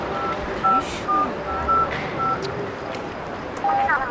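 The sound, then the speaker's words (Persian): Telephone keypad being dialed to call someone: several short touch-tone beeps of varying pitch in an uneven rhythm over a constant background noise. “یه زنگ بزن ببین کجاست.”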